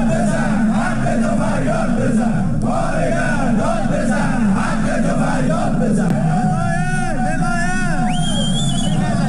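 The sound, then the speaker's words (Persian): Striking workers from a home-appliance factory and the Sarma Afarin company chant slogans at a protest rally in the Alborz industrial town in Alvand, Qazvin. Many voices merge into a loud, continuous roar of shouting. “تصاویر منتشر شده، کارگران کارخانه لوازم خانگی و کارکنان شرکت سرما آفرین در شهر صنعتی البرز در الوند قزوین دست به اعتصاب زدند و در تجمع اعتراضی خود شعارهایی سر دادند.”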